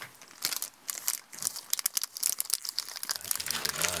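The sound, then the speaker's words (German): Crinkling of a chocolate bar wrapper being opened during a long walk. Many sharp crackling bursts run through the whole clip at a fairly even, busy pace. “Aber dagegen haben wir was. Für diese Momente hat Oma die Schokolade eingepackt.”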